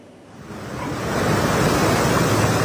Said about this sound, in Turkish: Ahmet, şu an için burada yağış yok. Sadece sert bir rüzgar estiğini söyleyebiliriz.